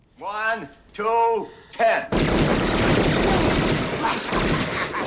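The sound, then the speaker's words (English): Gunfire from a film scene: a man's voice speaks first, then a long, loud burst of rapid shots begins abruptly and continues as a dense, steady roar to the end. “This pizza boy jumps like he's on fire. I think someone's actually shooting.”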